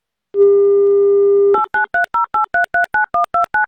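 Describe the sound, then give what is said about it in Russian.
A telephone call being placed: a steady dial tone lasts over a second, then gives way to a rapid, evenly spaced string of many short keypad tones, with no voices. “давайте мы уже что ли Роману позвоним”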